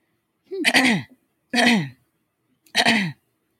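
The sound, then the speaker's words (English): A woman repeatedly clearing her throat as a habitual tic: three short, raspy, voiced bursts spaced about a second apart, each fairly loud and alone, with silence between them. “And now what she's doing, she clears her throat.”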